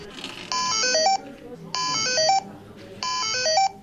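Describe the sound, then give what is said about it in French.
Bright electronic beeps from an open-source educational robot, played as three short melodic runs of tones separated by brief pauses, each run ending on lower notes, over faint background noise. “On s'approche ici d'un des modules bip bip tut tut qui suis-je, et on va écouter le robot Timio.”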